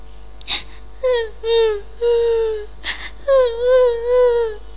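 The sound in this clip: A voice imitates a rabbit crying in a children's folk tale: several drawn-out, wavering whimpers and wails, each sobbing note sliding slightly in pitch, with short breathy catches between them.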